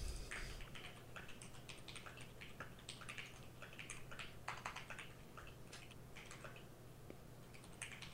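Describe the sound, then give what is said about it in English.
Fingers tap away at a computer keyboard in quick, irregular bursts of soft clicks. The typing is fairly faint over a steady low hum, and nobody talks. “I, I'm gonna type it. I'll type it.”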